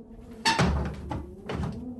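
A window is shut: a few dull wooden thuds and knocks, the first and last strongest, against a soft steady background with no voices.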